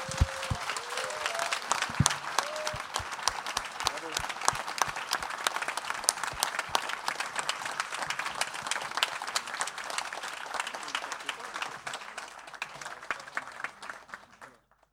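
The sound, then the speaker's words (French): Audience applause at a literary awards ceremony, an ovation for the artistic director and director: dense, steady clapping from many hands that holds for about fifteen seconds and then tails off. “je vous demande une ovation pour notre directrice artistique et notre directeur, Stéphanie Nico et Stéphane Vizère”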